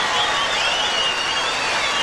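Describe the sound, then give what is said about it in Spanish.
A crowd applauds the Chiquicanto children's choir from Mataderos with dense, continuous clapping that stays steady and fairly loud for the whole two seconds. “Un aplauso grande para el coro Chiquicanto de Mataderos.”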